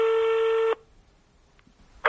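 A steady telephone tone sounds alone for under a second as a phone call to a radio reporter is placed, then drops to near silence with a couple of faint clicks.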